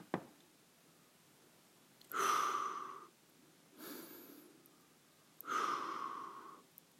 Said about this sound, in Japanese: この状態で深呼吸を2回します。